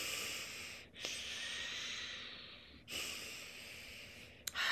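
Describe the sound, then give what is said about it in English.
Ujjayi breathing drawn in and out through the nose with the breath constricted in the throat: long, soft, airy hisses separated by brief pauses, two full breaths and the start of a third, faint and alone. “Ujjayi is breathing in through the nose, breathing out through the nose, but when the breath passes through the throat, it's kind of making that same sound.”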